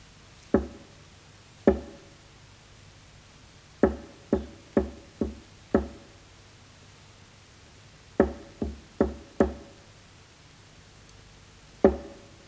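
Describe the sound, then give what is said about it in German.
Knocking signals tapped on a prison cell wall: twelve sharp, dry knocks in uneven groups of two, five, four and one, separated by pauses, each standing alone against a quiet background. “Ich sitze in der Zelle und warte auf die Klopfzeichen.”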